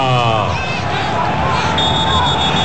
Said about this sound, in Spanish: Pita Fagani, tiempo de hidratación.